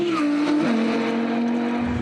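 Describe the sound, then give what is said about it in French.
Engine of a naturally aspirated car accelerating hard down a race circuit straight past 225 km/h, a loud sustained drone with one brief pitch dip partway through before the tone holds steady again. “La voiture se place bien sur les freins. C'est ça qui est très bon. La ligne droite du circuit de trappe avalée à plus de 225 km/h.”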